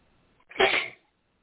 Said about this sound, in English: a couple of days ago, I caught the beginnings of what seemed like a cold, only two sneezes then, two sneezes the next day, and two sneezes today.